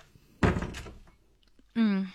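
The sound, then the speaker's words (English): A door being closed with a single dull, solid thump, followed after a short pause by a voice speaking. “Must I close the door? Please.”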